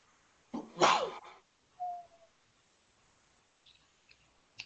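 A single sneeze bursts out sharp and loud, then fades into a few faint small noises.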